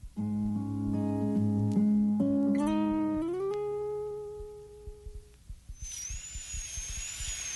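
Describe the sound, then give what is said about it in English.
Dental drill drilling out an old filling: a steady tonal whine that climbs in steps as the drill speeds up, then gives way to a thin, high-pitched whine over faint rattling. “I'm drilling out the old filling now.”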